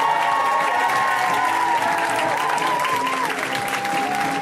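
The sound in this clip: A comedy show audience applauds and cheers loudly to welcome a comedian to the stage, with a dense, steady roar of clapping and crowd noise that holds throughout.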